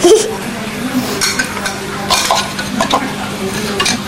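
Plates and dish lids being handled: light, irregular clatter with a few ringing clinks and scrapes of crockery.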